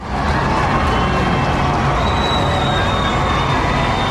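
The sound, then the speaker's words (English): Crowds gathered in London for William and Kate's royal wedding send up a loud, steady roar of cheering that stays dense and unbroken throughout. “Here's the sound of crowds gathered in London for the wedding of William and Kate today.”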